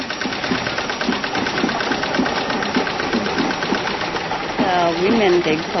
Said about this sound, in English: These women are getting trained on 2 kinds of sewing machines. One is a treadle machine.